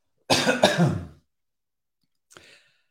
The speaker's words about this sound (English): Oh, I cleared my throat.